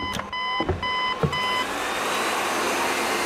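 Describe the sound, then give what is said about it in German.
A nutrient pump starting up in a radio drama: three short electronic beeps with soft thuds, then a broad hissing, whirring drone swells in and carries on alone. “Da, starten Sie die Nährstoffpumpe.”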